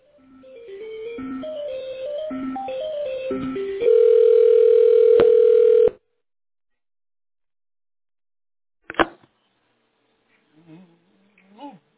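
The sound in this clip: Telephone line tones while a call is being connected: a short sequence of electronic beeps at changing pitches, then one steady tone held for about two seconds that cuts off abruptly, followed by silence and a single click.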